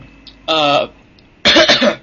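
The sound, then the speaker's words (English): Two harsh coughs after eating something spicy, the first throaty and voiced, the second a louder, rougher burst, each lasting under half a second with a pause between them and no talk. “I was eating something spicy and I've got a terrible cough.”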